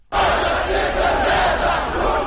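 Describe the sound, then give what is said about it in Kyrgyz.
Protest crowd chanting slogans at a rally in Russia against internet isolation; a loud, dense roar of many voices shouting in unison, sustained without a break. “Интернеттен колуңду тарт, интернеттин изоляциясына каршыбыз. Баарына бөгөт кое албайсыңар. Дал ушундай уран чакырыктар менен коштолгон митингдер жекшембиде Орусиянын Москва, Хабаровск, Санкт-Петербург жана Воронеж сыяктуу бир нече шаарында өттү.”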